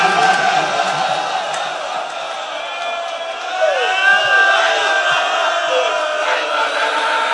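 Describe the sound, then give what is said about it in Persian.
Loud wailing and lamenting of mourners at a hosseiniyeh over the death of an 18-year-old: many voices keen and cry together in a continuous, wavering mass. “خیلی صدای شیون و ناله بلنده، یقین کن اون خونه جوون از دست داده.”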